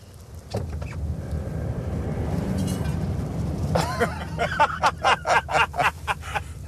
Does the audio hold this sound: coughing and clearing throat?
no